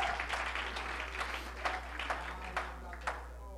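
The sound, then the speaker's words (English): Hand clapping from a church audience during worship, sparse, irregular claps rising from a steady wash of crowd noise and murmuring voices, with a few sharper claps standing out, moderately loud. “Oh, let's clap our hands unto him.”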